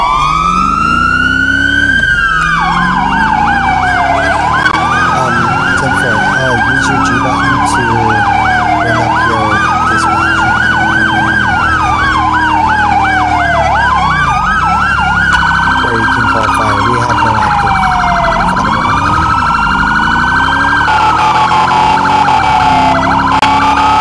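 A police siren wails loudly and continuously while the car responds code 3 in a roleplay video game, its tone sweeping up and down in repeated cycles about every four seconds, with no talk over it.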